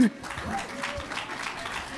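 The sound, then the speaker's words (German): A live audience of football fans applauding at a recording, a soft, even patter of clapping with a voice heard over it. “Das freut mich sehr, genau. Es wird schon gewunken, es wird applaudiert.”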